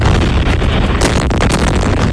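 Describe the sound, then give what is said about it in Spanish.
Explosions from US bombing strikes on Iran at night in the Middle East form a loud, dense, rumbling roar. Bursts of crackling blasts are packed so close together that no single boom stands apart. “Son los potentes ataques que ha lanzado Estados Unidos contra Irán por tercera noche consecutiva, por orden del presidente Donald Trump,”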